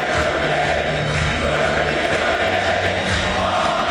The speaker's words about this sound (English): Singing away the Tartan Army.